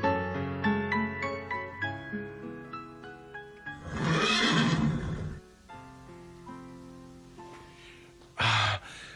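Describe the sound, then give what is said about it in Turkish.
A horse whinnies loudly in a long, shrill neigh, then after a pause gives a second short, sharp outburst near the end. “Bindiğim at hangisiydi? İşte bu. Hadi oğlum, beni kasabaya ancak sen götürebilirsin.”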